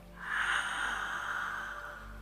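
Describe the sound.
Slow, deep breathing forms one long, steady airy rush of breath that swells early and holds for about two seconds, with no one talking.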